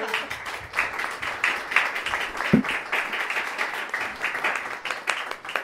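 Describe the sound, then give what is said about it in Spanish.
Applause from the audience at a neighbourhood talk day about drug flats, a dense, even patter of many hands clapping at moderate loudness, with one sharper low thump partway through. “Es un aplauso, ¿no? Sí, claro.”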